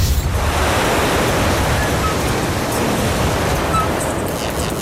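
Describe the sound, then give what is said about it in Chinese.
Strong typhoon wind at a lighthouse roars as a dense, steady rush of noise with no pauses. It stays loud and even throughout, much like heavy surf. “对，这风太大了。”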